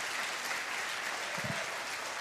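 Church audience applauding to welcome a visiting professor before a sermon: a steady, unbroken wash of clapping that stays at a moderate level throughout.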